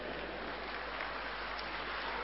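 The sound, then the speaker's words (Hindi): Children clapping together make a continuous, dense wash of applause. It is steady and even throughout, with no individual claps standing out and no talking. “आज बाप देख रहा है कि बच्चों के अंदर इतना उमंग है, इतना उमंग है कि बाप मना करता है फिर भी ताली बजा रहे।”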